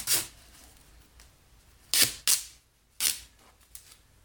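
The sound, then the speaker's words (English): Duct tape being torn from a roll: several short, sharp ripping bursts separated by quiet gaps, fairly faint overall. “I feel like this is deserving of a of a duct tape strip.”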